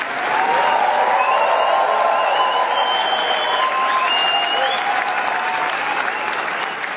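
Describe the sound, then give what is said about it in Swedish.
Standing ovation for Léa Seydoux after the premiere of the film Gentle Monster at the Cannes film festival, a sustained, loud wave of applause from a large audience that holds steady throughout. “Ja, så här lät det när skådespelaren Lea Seydoux fick ta emot stående ovationer för filmen Gentle Monster efter att den haft premiär under den pågående filmfestivalen i Cannes.”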